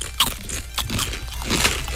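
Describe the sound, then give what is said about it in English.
Beefy roast-flavoured crisps being crunched while eating, a few sharp crackling bites scattered over about two seconds, with no talk. “It's not too bad. Like, it kind of just tastes like crisps.”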